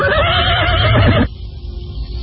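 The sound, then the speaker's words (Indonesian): A horse that is about to be ridden away neighs loudly in a long, quavering whinny lasting about a second. The call cuts off abruptly, leaving faint low background noise. “Aku akan segera melarikan kuda ini.”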